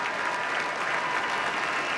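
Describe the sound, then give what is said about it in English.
A concert audience gives a standing ovation as the artists bow after a performance with the Boston Symphony Orchestra. Thick, continuous clapping holds at a steady level for the whole short stretch. “Our artists bowing to the audience now, who are offering a standing ovation.”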